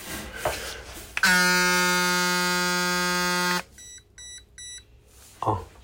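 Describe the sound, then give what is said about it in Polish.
A discharged device sounds its low-battery warning: a loud, steady, buzzing electronic tone lasting over two seconds, then a few short, higher beeps. “Generalnie też jest tak, że jak ona jest rozładowana, pozwolę sobie ją odpalić, bo się rozładowała akurat, to nam piszczy.”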